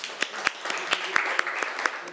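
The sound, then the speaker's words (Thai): Students clapping in a classroom, a sparse set of separate sharp claps spaced irregularly, fairly faint, with some voices in the background. “นักเรียนปรบมือให้เพื่อนหน่อย”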